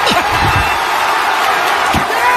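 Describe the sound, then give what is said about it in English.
Sports crowd roaring wildly: a loud, dense, sustained roar with a few low thumps near the start and another near the end. “And the crowd goes wild.”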